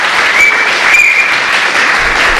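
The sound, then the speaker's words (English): Loud live audience applause at University Settlement on the Lower East Side in New York City, a dense, sustained roar of many hands clapping that stays steady throughout. “Yeah, we had to pay extra for the strong applause track on iTunes.”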